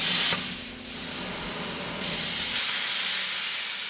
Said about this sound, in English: They use a torch to score the head of the statue